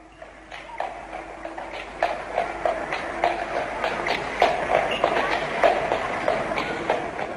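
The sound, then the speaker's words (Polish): A horse-drawn tram moves along rails with a steady rhythm of clattering beats over a continuous rattling rumble that grows louder after the first couple of seconds. “Konie ciągnęły. Tak, konie. Koń, jeżeli ciągnie jakiś duży wóz, to dużo łatwiej mu się ciągnie ten wóz po szynach niż po bruku.”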